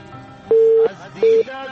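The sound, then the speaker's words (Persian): Telephone busy tone after a dropped call: two steady, mid-pitched electronic beeps, the first longer than the second, separated by a short gap, with faint voices underneath. “تماس کشمن جان قطع شد”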